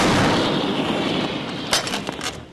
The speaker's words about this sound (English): These howitzer shells are more than 2 feet long and about the diameter of a DVD. When the weapon fires, the concussion wave pulses through your whole body. Ready to fire? Fire!